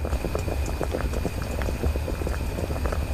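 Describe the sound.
Soaked, dehulled soybeans boiling in water: steady, dense bubbling and crackling that stays even throughout, with no pauses.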